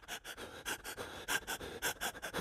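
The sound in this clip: A voice imitating panicked crying breath, like an asthma attack: many rapid, ragged panting gasps in an uneven rhythm, fairly faint, with no words spoken.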